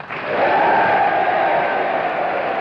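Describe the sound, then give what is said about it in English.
Cheering from Congress members and about 1,500 guests and visitors from the House and Senate as they stand for a general. A loud, continuous roar of voices and applause holds steady throughout. “The sound you hear is the Congress of the United States, 1,500 visitors, guests, and members of both the House and Senate, as they stood and cheered”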